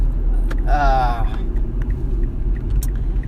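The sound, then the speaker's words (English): A car driving on the road gives off a steady low engine rumble throughout, with a brief higher tonal sound riding over it near the start. “Now, I'm actually driving on my way to the gym”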